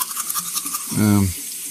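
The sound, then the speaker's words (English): A toothbrush scrubs teeth at a bathroom sink with a brisk, wet bristle rasp, interrupted midway by a brief low muffled vocal sound. “The bathroom light buzzed as Leonard brushed his teeth. Spider-Man pajamas reflected in the mirror. Foam gathered at the corners of his mouth.”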